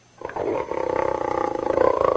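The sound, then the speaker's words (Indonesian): A tiger roars in a low, rumbling voice. The roar starts abruptly, then sustains as a rough growl with a rapid pulsing rhythm, loud and alone. “Ada satu hari mereka berjalan di hutan, lantas ketemu seekor harimau hendak menangkap kambingnya.”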